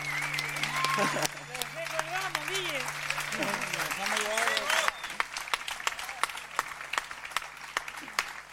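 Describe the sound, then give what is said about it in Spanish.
Audience applause for a band's wind players at a live show, with many sharp claps. A voice is heard over the first half, then the clapping carries on, bright and dense, until the end. “Fuerte ese aplauso para los pibes, los vientos acá, por favor.”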